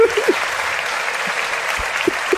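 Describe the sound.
Steady applause from a live audience at a Christmas special show, a continuous even wash of clapping that holds at a moderate level from start to finish.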